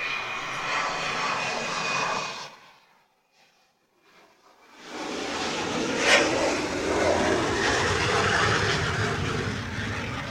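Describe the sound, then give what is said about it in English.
A T-38 jet aircraft flies past with a loud, broad engine roar. The roar drops away sharply for a couple of seconds midway, then surges back strong and sustained to the end. “But for those wondering, that was a T-38”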